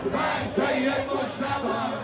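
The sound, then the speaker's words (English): Crowd of mourners in Iran chanting, a dense mass of voices shouting together in loud, continuous swells with a rough rhythmic rise and fall. “As the crowd continues to grow, chants for Iran's new supreme leader, Sayyid Mujtaba Khamenei, begin to ring out.”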